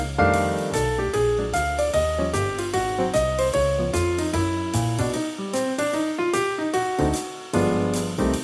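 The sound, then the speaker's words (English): A jazz piano soloist plays exactly in time with the rhythm section, a steady, loud, continuous swinging groove of bright piano lines over bass and drums, with no voices. “In one version, for example, the piano soloist started at the exact same time as the rhythm section, like this.”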